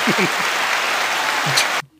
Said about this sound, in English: I'm acknowledging that it was supposed to be the applause the first time